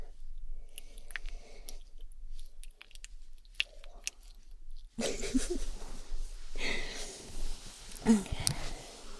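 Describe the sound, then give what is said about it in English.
Squishing slime ASMR: many soft, wet, crackly squelches and pops. They are faint and sparse at first, then grow denser and louder partway through. “The best slime ASMR sounds. Organic.”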